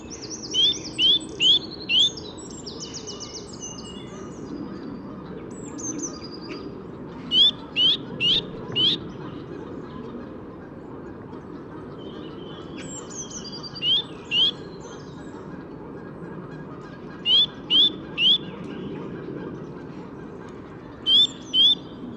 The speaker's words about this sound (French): Il y a une mésange bleue qui se mêle à l'ambiance.